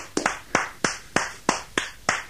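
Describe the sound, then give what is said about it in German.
Hand clapping from a studio audience giving a standing ovation for the host: a steady run of sharp single claps spaced about a third of a second apart, with no crowd roar or voices. “Ja, Standing Ovation getan, meine Damen und Herren, hier im Studio.”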